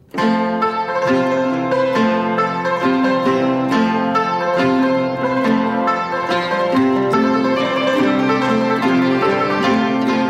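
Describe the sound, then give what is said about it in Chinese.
A yangqin, the Chinese hammered dulcimer, is played alone in a bright, brisk stream of many struck string notes. Each note rings clearly and overlaps the next in a steady rhythm. “你听听看，这是扬琴的声音， 是不是很像钢琴呢？”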